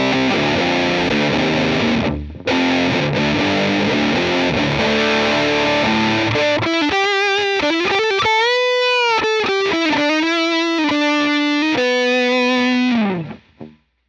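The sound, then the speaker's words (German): Distorted electric guitar through a Soldano amp setup on a Helix modeler, starting with dense, saturated chords broken by one brief gap, then moving to sustained singing lead notes with bends and vibrato before cutting off. “ein möglichst gut klingendes Soldano-Setup zu machen”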